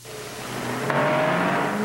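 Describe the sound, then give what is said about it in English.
A 1963 Ford Galaxie 500 accelerates, its engine note climbing steadily in pitch as it gains speed. The loud, continuous roar builds in volume through the first second and then holds strong. “Here's the car that Ford claims can do 100 miles an hour in 13 1/5 seconds.”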